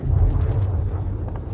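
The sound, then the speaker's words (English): German bombs exploding over London during an air raid: a deep, heavy rumble that holds steady throughout, with a few sharp crackling bursts near the start. “London, cradle of empires, now writhes under the relentless pummeling of German bombs.”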